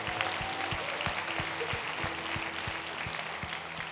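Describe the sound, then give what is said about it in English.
A church audience applauding, steady dense clapping that holds at an even level for about four seconds with no break. “Can we give a hand for all those that have given their heart to the Lord today?”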